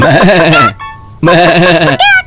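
Goat bleating in a children's setting: two long, loud, wavering bleats, each followed by a brief high, tonal sound.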